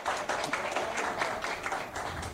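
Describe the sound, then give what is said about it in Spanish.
Applause at a ceremony as a guest, a provincial representative of the women's ministry, is introduced at the head table: a steady, dense patter of many hands clapping at an even level throughout. “un aplauso para ella”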